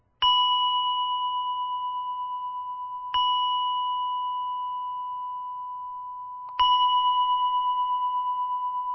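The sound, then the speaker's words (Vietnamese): A temple bell struck gently three times, a few seconds apart. Each soft strike blooms into a clear, steady, bright tone that decays slowly, with no voices around it. “Cho nên cái người thỉnh chuông lên là phải nhẹ nhàng 3 tiếng.”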